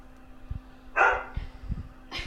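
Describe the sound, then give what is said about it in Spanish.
A small dog barking: a few sharp, high yaps, the first the loudest, over a low steady hum. “Ahí pudieron escuchar al perrito.”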